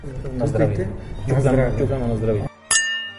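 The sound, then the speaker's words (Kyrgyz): A single bright clink of wine glasses in a Czech-style toast rings out after a stretch of talking, and its thin, high ringing tone lingers briefly after the strike. “Биз чехтер шарап ичкенде на здрави деп айтып туруп, анан стакан кагышабыз.”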